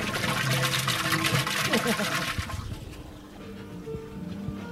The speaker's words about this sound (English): This is the sound of Carrot Top's fountain.